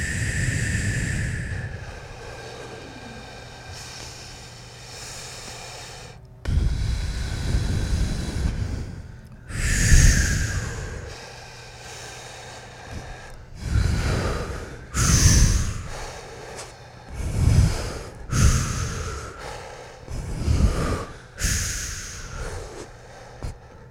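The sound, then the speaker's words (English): Rapid breathing during a breathing exercise, with sharp snort-like inhales and exhales that come faster and closer together, ending in one big exhale. No one talks. “Speeding up so it becomes one big exhale.”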